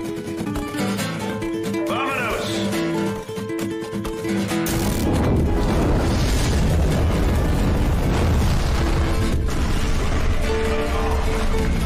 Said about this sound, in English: It was like a 10-second clip. A house exploded. Like, it's from a Ring camera. It's just a house.